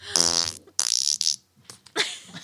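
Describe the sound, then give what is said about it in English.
A voice imitates a stereotypical sound-effect fart with buzzy, lip-flapping blurts, a few short loud bursts in quick succession, heard alone without other talk. “Let's just say like a stereotypical like sound effect fart,”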